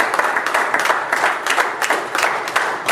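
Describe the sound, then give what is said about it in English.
A church audience applauds, with dense, steady clapping that holds a fairly even level throughout, rippling with many overlapping hand claps. “Give the Lord a hand of applause.”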